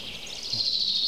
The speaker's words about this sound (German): Jetzt sind wir Zeuge eines klassischen Kontergesanges.